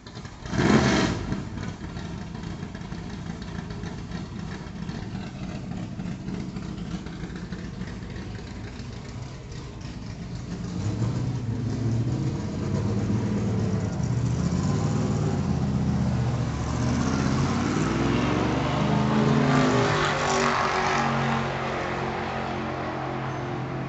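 A NASCAR race car rumbles on a ride-along at Michigan International Speedway, a brief loud burst giving way to a steady engine drone that grows louder and rougher in the second half as the revs climb.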